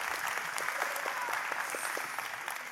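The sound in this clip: Audience applause at a church service welcoming a guest speaker: dense, steady clapping from a crowd that continues evenly throughout without a voice over it.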